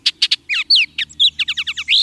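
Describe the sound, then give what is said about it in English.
Song of a Baltimore oriole: a rapid, loud run of many clear whistled and chattering notes, some sliding down in pitch, with no other sounds. “a sudden flash of orange and black in the treetops usually means one thing. Orioles. Baltimore Orioles in the east.”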